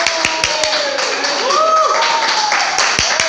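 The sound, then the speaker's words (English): Audience applause at a live show, a steady wash of clapping with sharp hand claps and cheering voices rising over it, holding loud and even for the whole stretch. “Everybody, put your hands together for Leroy Alberg. Yay!”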